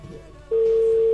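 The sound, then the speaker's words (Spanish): Steady telephone line tone on an outgoing call that is not being answered. A single unbroken mid-pitched hum comes in sharply about halfway through, after a stretch of low noise, and holds at an even, fairly loud level to the end. “Vamos a intentar una vez más. A ver si entra la llamada.”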